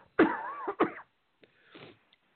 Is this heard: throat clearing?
yes